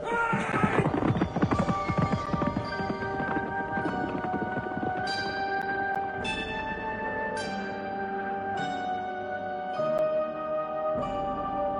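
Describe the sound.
Horse hooves clip-clop in a quick, busy burst of hoofbeats at first, then in slower, regular knocks, each followed by ringing, bell-like tones that linger between steps.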